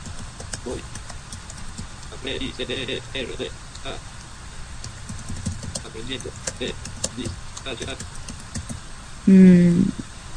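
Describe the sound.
Rapid keystrokes on a computer keyboard as HTML text is typed, many light, irregular clicks running throughout, with voices talking underneath and a louder burst near the end.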